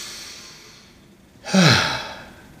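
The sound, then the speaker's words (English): One deep breath taken during a children's song about calming down when mad: a single sigh-like inhale and exhale that swells suddenly after a quiet stretch and then fades. “If you're mad and you know it, take a deep breath.”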